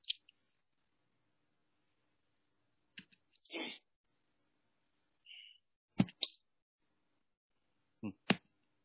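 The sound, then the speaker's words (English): Faint, sharp clicks advance presentation slides during a lecture. A few isolated clicks, some in quick pairs, are spread across long stretches of near silence. “I'll have to do a couple of clicks here.”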